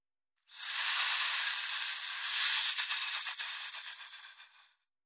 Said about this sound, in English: Hiss.